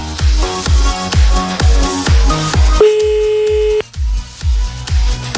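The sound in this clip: A telephone ring tone sounds as a radio call-in show dials a listener: a single steady, buzzing tone of about one second cuts in over loud, rhythmic music.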